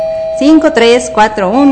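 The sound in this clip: A doorbell chime sound effect rings loud and clear as a short melodic jingle of several bright tones whose pitch glides up and down, ending on a falling note.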